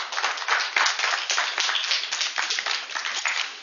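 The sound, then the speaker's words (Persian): Audience applause fills the whole stretch, a dense, steady wash of many hands clapping with no voices, holding a fairly even loudness throughout with slight swells and dips. “یه دست میخوایم برای آقای شمندی بزنیم.”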